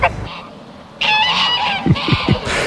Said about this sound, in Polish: Piękne, osobliwe towarzystwo. Gęś, kaczka i kundelek ze swoim opiekunem.